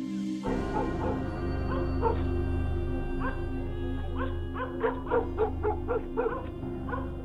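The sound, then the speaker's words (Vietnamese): Dogs barking at night from houses along a road: many short yips and barks in irregular bursts, growing busier toward the end, over a steady low hum. “Văng vẳng trong đêm, Long nghe tiếng chó của mấy nhà từ trên đường cắn rỗng xuống dưới suối.”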